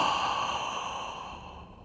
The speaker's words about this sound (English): On the inhalation, make the sound O, like this.